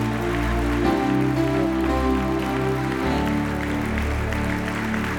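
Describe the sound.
An audience at the Cathedral of Faith applauds to welcome a pastor. The clapping blends into a continuous, even wash of sound with no clear individual claps.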